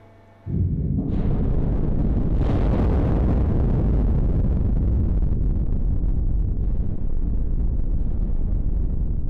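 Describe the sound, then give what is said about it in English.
Rock blasting explosion at a quarry, heard from 180 metres: a sudden loud blast bursts in, builds over the first seconds, then settles into a long, heavy, steady roaring rumble that lasts to the end, with no talk. “Now we feel the blasting works. It's 180 meters from this point.”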